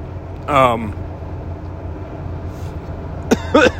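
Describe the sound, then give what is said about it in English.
A person coughs once with a raspy, voiced rasp, then after a pause clears their throat in a couple of quick, harsh bursts. A steady low rumble continues underneath throughout. “sorry. Something caught my throat.”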